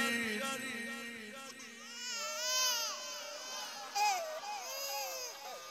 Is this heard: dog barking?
no